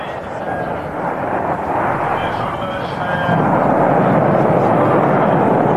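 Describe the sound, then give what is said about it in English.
The rocket launch of the 1991 mission carrying the UK's first astronaut to the Mir space station roars as a loud, continuous rumble. It swells to an even heavier roar about halfway through. “But let's begin with a launch. On May the 18th, 1991, the UK's first astronaut was blasted into space on an 8-day mission to the Mir space station.”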